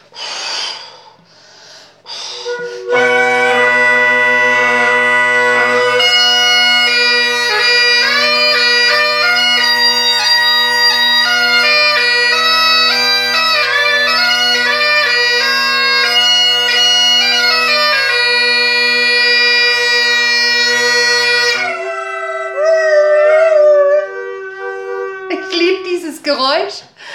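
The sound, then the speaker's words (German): A Great Highland bagpipe played after a few audible breaths fill the bag: steady low drones under a bright, high chanter melody for nearly twenty seconds, then the drones cut out, a wavering tone lingers, and a brief squeal ends it. “Das ist Duncan, my great Highland Bagpipe, mein großer schottischer Highland Dudelsack. Und ich schau mal, ob ich euch ein paar Takte spielen kann.”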